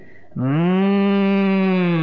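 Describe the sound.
A human voice imitates cows lowing as they sense Krishna approaching: after a brief faint start, one long, loud, low moo that holds a steady pitch with a rich, buzzing tone.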